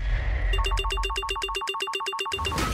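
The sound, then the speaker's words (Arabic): An electronic telephone ring on a radio station's call-in line: a rapid, even trill of many short pulses, loud and alone, that cuts off abruptly near the end. “أهلا بكم على هواتف راديو الرشيد.”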